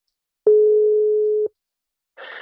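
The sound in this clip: A telephone tone: a single steady, low-pitched beep lasting about one second that starts and stops abruptly. Silence follows, then a short burst of noisy sound.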